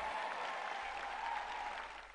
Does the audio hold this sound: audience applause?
yes